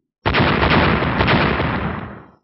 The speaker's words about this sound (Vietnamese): Những tiếng nổ lớn kinh thiên động địa